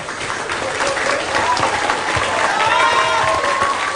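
An audience claps for two professors at an academic event at a technology and business institute, a loud, dense and steady round of applause that lasts throughout.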